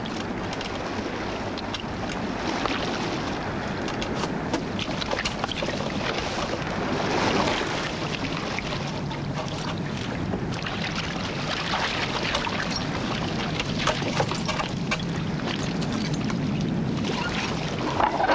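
Steady wash of water and wind noise around a small rowboat as people board it from a ship and cast off, continuous throughout with no distinct separate events.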